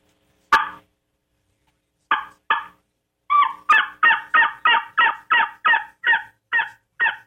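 A tube turkey call blown in raspy, loud yelps: a single yelp, then two, then a fast even run of many yelps, heard alone without voices.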